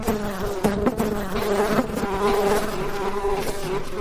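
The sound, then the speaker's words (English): Bees buzz around a beehive in a dense, loud, continuous drone with a steady pitch, heard alone without voices. “They found a beehive and ate honey by the handfuls.”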